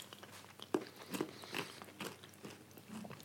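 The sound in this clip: Biting and chewing banana with walnut: quiet, irregular crunchy bites and chews, several distinct crisp bursts with softer mashing between, and no talk.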